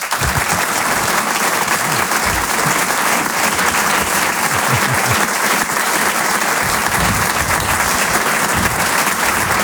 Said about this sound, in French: Je vous demande une ovation s'il vous plaît pour Selig.